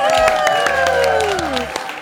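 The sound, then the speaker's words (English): Audience applause and cheering greet a guest being welcomed onstage, a dense steady wash of clapping with a gliding, descending tone sounding over it. “please put your hands together and welcome Tala Tootoosis.”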